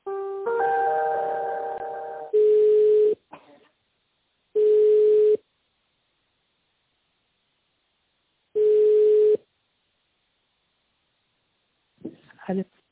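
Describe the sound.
Telephone line tones play while a call is transferred: a short multi-tone chime, then three long steady beeps separated by silences, and a voice briefly starting at the end.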